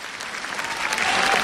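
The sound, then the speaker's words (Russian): Audience applause greets a new performer at an international charity festival concert, a dense, sustained clapping that swells slightly louder toward the end. “похлопайте новой звезде, Матвей!”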